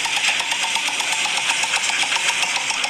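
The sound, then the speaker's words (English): Rapid, even clicking of a roulette wheel being spun: a dense, steady run of many ticks at a constant pace, moderately loud, with no voices. “The Hallmark holiday roulette wheel. Okay, we're giving it a spin.”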